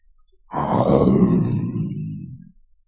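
A lion roaring: one deep, loud, rough roar lasting about two seconds that swells quickly and then tapers off, heard alone.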